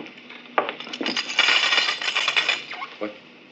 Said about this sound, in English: If we had four or five suns out there, we might want to cut the light down for comfort, but with only Beta... That is the point. Just draw the curtain and then come here and sit down.